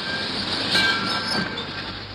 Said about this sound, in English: I just got off the train. I expected that I'd be met.